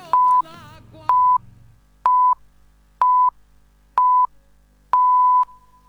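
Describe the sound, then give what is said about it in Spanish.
Radio station time signal in Argentina: six evenly spaced, steady high electronic beeps about a second apart, the final one held longer, with a faint voice trailing off under the first two. “Sonó el top y en Radio 750 estas son las noticias.”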